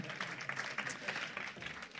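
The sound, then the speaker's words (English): Applause from a church gathering as a woman comes up to read scripture. A dense, steady patter of many clapping hands runs fairly faintly through the whole clip. “Should we give her a round of applause as she comes up?”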